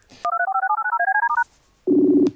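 A telephone rings on an outgoing call: a rapid, trilling two-tone ring lasts about a second, then after a short pause a single buzzing tone sounds.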